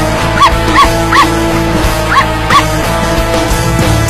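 A few short, high yipping dog barks sound over a continuous music bed, evenly spaced in two small clusters, in a comic segment about dogs on a London bus tour.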